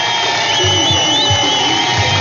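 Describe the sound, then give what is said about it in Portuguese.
Played by a radio presenter, a canned crowd effect delivers steady cheering and clapping at a loud, even level, with a few low thumps underneath. “Deixa eu aplaudir primeiro, aqui.”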